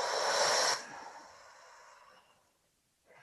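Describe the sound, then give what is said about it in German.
A deep breath drawn in through the nose and let out through the mouth in a guided breathing exercise: a loud, brief airy inhale, then a softer, longer exhale that fades to quiet before another breath begins. “Durch die Nase ein, halte kurz inne und atme dann durch den Mund aus.”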